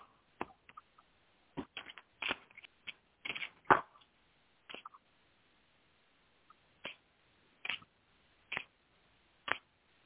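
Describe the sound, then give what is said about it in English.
Tarot cards are laid out one after another on a table. Faint, sharp taps and slaps come in irregular clusters at first, then a few single spaced placements, with no talk. “I put down seven cards, and three of them are major arcana cards.”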